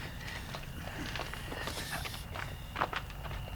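Footsteps of someone walking closer, a steady run of soft treads over a constant low background rumble and hum, with no talking.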